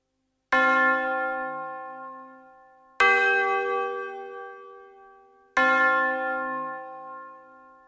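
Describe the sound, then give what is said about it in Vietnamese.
A death knell tolls as three slow, heavy bell strikes, evenly spaced about two and a half seconds apart. Each rings out loud and resonant, then fades into a long humming decay before the next stroke. “tiếng chuông báo tử ray rứt xót xa, xé nát cõi lòng người nghe. Một tín hiệu không bằng tiếng người mà bằng tiếng chuông.”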